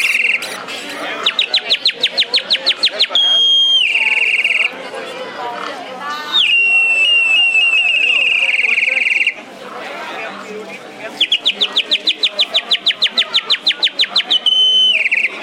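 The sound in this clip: Warbling trills from a toy canary whistle, offered for children, imitate birdsong in long rapid bursts of high chirping, with steady high whistled tones between them.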